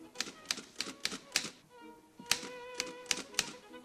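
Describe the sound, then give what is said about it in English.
A young woman types on a typewriter in a factory office, an uneven run of sharp, crisp key clacks with a short pause midway, the strikes fairly quiet and spaced irregularly. “As painters refurbish his factory office, Schindler has a young woman sit behind a typewriter.”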